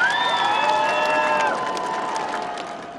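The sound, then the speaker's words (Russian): An audience applauds pilots at an air show where Su-27 and MiG-29 jets fly a display. Dense, steady clapping runs throughout. A high tonal whine sounds over it in the first half, and the applause slowly fades toward the end. “Аплодируем летчикам!”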